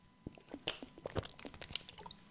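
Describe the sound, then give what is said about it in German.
A quiet sip of water: soft, wet mouth and liquid sounds with several small clicks and squishes spread over about two seconds. “Ein Schluck Wasser.”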